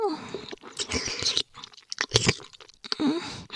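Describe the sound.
Wet mouth sounds of licking and nibbling on an ear, with irregular smacking, sucking and crunchy chewing-like bursts. They come in several close clusters separated by brief pauses, with no talking.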